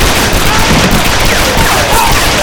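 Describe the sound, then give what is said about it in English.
Gunfire from pistols in a barroom shootout, a dense, continuous barrage of loud overlapping shots that holds a steady level throughout, with no clear gaps between reports. “he jerked freshly charged pistols from his belt and began pouring out the lead.”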